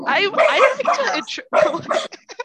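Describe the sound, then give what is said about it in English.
A small dachshund yaps in a few bursts of high, sharp barks, loud and ragged, with short gaps between volleys. “Sorry, my dog is angry. Yeah, my dog goes, he's a little wiener dog, but he protects me.”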